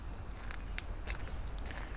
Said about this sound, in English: And walk over here to where the path leads up the hill.